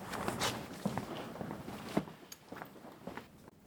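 Footsteps walk over to a tactile model of Lund Cathedral, making many soft, irregular thuds and scuffs of moderate loudness, with a few sharper steps along the way.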